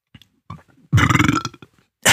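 A loud, drawn-out belch from a man eating roast turkey, following brief rustling and mouth noises, with a second loud burst starting at the very end.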